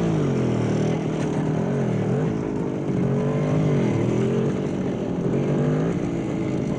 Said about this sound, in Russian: По улице города едут немецкие солдаты на мотоциклах.